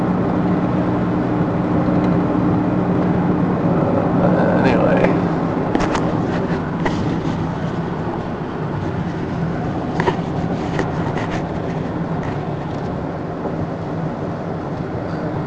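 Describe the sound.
Car driving on a commute home: steady low road and engine rumble throughout, with faint clicks and rattles, under a man's voice.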